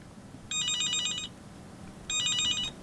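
A telephone rings as a call to a radio listener is placed: two bright electronic trilling rings, each lasting under a second, separated by a short pause, with no talk over them.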